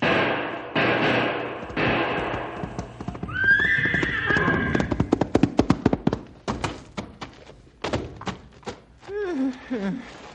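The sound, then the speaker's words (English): A frantic horse whinnies loudly while trying to help its wounded rider against a charging bull. Its hooves then stamp and clatter in a rapid, irregular series of sharp thuds. “Stumpy's horse, Maud, is frantically trying to help her master.”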